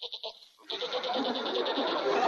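A goat bleats while eating flowers in a flower garden: a few short clipped notes, then a long, rough, wavering bleat that holds loud to the end.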